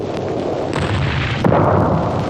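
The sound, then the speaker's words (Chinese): Artillery cannon fire rumbles in a dense, continuous barrage, a loud low roar with a couple of sharper blasts breaking through and no voices. “张灵甫大炮再多，这回啊也不顶事喽。”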